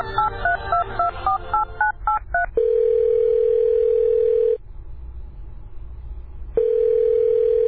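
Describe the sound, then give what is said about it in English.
A telephone call being placed: a quick run of keypad dialing tones, then a steady ringing tone that sounds twice with a quiet pause between. “She gives Nadira a call.”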